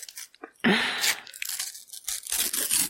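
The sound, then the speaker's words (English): A sticker packet is torn open from the side with a loud, crinkly ripping burst, followed by scattered rustles and crackles of the wrapper. “That's much better. And in much better sound as well. I've gone for the side tear again.”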